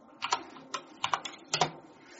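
Computer keyboard key presses, including the G key, used to repeat an extrude command during 3D modeling: a few quiet, sharp clicks, some in quick pairs, with no talking.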